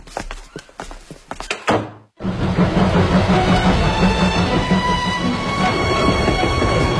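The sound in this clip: A train on a trip to Gaobeidian in Hebei: sharp clicks and a heavy thunk come first, then a brief hush gives way to a loud, steady rumbling roar that carries on to the end.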